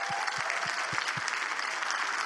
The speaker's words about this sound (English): Can we give them a hand clap tonight?